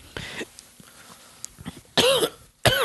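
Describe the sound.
A person coughs twice, loud and harsh, near the end. Softer rustles and a brief burst come earlier.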